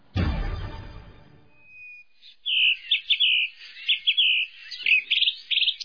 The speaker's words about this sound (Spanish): Es el lugar indicado para observar las distintas especies de aves que vuelan por este gran bosque.